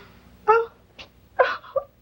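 A woman sobbing in a few short, broken bursts of breathy, catching cries separated by quiet pauses, fairly soft overall.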